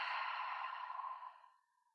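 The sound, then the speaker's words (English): A long, breathy exhale through the mouth during a guided breathwork exercise: one steady, airy rush of breath that fades away over about two seconds, heard alone without talk. “Invite yourself just to take a deep breath in through the nose. Audible exhale out through the mouth.”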